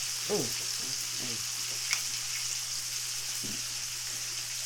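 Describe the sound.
Mushrooms seasoned with garlic pepper and steak seasoning sizzle in a pot, a soft, steady frying hiss with a few faint clicks and bubbling sounds from stirring.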